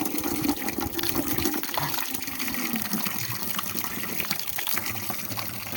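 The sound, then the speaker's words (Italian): Water runs from a drinking fountain in a steady, continuous splashing gush that holds without a break, with no talk over it. “come al solito la fontanella.”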